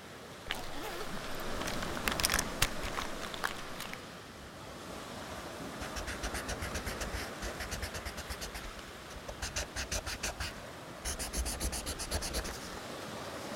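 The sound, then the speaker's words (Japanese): Scratchy pencil strokes come from drawing a sketch in a sketchbook while seated on a rocky shore. Rapid scraping arrives in several bursts of quick strokes with short pauses, over a steady wash of surf and wind. “ここに腰掛けていつもスケッチをそうだスケッチブック”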